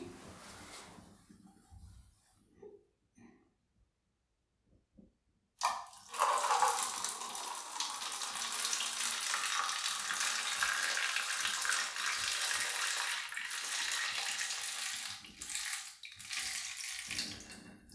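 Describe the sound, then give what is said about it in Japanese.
Urinating into a paper cup: a few faint handling sounds and quiet pauses, then a strong, steady hissing stream that runs unbroken to the end with only slight dips. “じゃあおしっこをしていきますね。”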